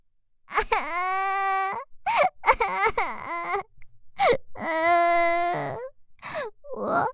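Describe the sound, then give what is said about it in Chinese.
A frightened little girl who is lost cries loudly on her own, in long, high, wavering wails broken by short gasping breaths and sobs. “原来是个小姑娘。你怎么了？别哭啊。”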